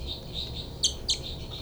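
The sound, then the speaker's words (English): Two birds calling: several repeated high, thin notes and two sharper, louder chirps close together, over a steady low background rumble. “Both birds.”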